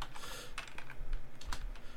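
Typing on a computer keyboard: quick, irregular clicking keystrokes, some in tight bursts and others spaced apart, fairly quiet and with no talk over them.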